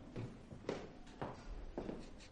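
Faint footsteps of two people climbing the stairs of an apartment block in a film scene: several soft, evenly spaced steps in a steady, unhurried rhythm.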